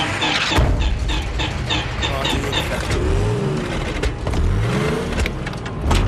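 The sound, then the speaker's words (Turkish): A cold tank engine, with condensation on its spark plugs, turns over and revs up in a continuous rough roar, with two rising pitch sweeps as the throttle opens. Faint voices can be heard in the background. “Çalıştır bakayım. Motor ısıt, soğumuş. Bujilerde yoğunlaşma var.”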